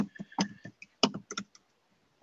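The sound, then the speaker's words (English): Keystrokes on a computer keyboard while typing an online search, a brief irregular run of crisp clicks with short gaps, fading to silence at the end. “Let me type.”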